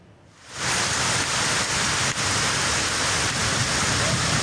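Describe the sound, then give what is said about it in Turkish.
Heavy rain and hail pound down during a storm in the Black Sea region of Turkey, in Gümüşhane, where downpours flooded streams. After a brief quieter start, a dense, loud, unbroken hiss of falling water holds steady to the end. “Karadeniz bölgesinde şiddetli yağmur ve dolu etkili oldu.”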